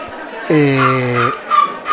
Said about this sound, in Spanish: Tenemos ahí un perrito que se está quejando, no sé por qué.